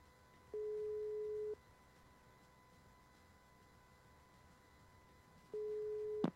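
Ringback tone of an outgoing phone call: two steady beeps, each about a second long, separated by roughly four seconds of quiet line hiss, ending with a sharp click as the second tone cuts off.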